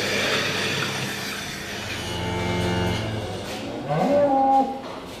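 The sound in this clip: Cows mooing in a dairy milking shed during milking, with the pit being hosed out, on a farm near Opunaki. Long, low calls rise over a constant broad hiss and hum of machinery, with a higher, louder call near the end.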